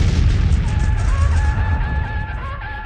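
A loud explosion from grenades strapped to charging attackers: a dense, sustained low rumble that fills the whole stretch and eases off slightly toward the end.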